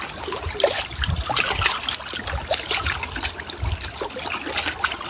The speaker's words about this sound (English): Taking in the sounds, the play of light and water, the healing touch of the breeze this morning.